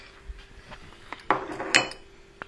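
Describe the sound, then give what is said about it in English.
A spoon clinking against dishes while making a hot drink: a few light, bright clinks and scrapes at irregular intervals, quiet, with no talk. “Now, get my dirty spoon, which had been on the floor.”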